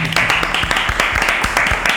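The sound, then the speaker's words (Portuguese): A studio audience at a live television show applauds a guest, a loud, dense patter of claps that continues steadily throughout. “senhoras e senhores, palmas para Augusto Lima”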